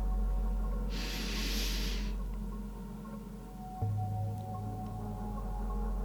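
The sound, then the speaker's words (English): A large inhale through the nose during a guided breathing meditation: a single faint, breathy hiss lasting about a second, set over a steady low hum. “And you're going to take a large inhale through the nose.”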